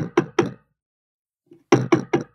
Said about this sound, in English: But right now, someone's at the door of the house.